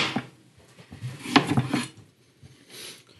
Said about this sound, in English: Stone fruits are hard to cut.